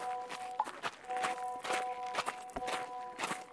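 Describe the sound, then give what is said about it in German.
Footsteps of someone walking over to a school, a steady series of fairly soft steps with a faint steady hum running underneath. “Komm, wir gehen schnell zur Schule rüber und schauen, ob der Herr Gautlitz noch da ist.”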